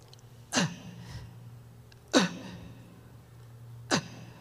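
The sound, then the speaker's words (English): A voice imitating gasping, suffocating breaths: three sharp, strained inhales spaced about a second and a half apart, each a short rasping gulp that drops in pitch, with quiet between them. “You can't take a nice deep breath. You don't get to do that in hell. And maybe only an asthma patient can relate to this, or a fireman. This is how you breathe in hell.”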